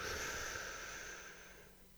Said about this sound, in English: hold it there for a few seconds. All right? One, two, three. Inhale.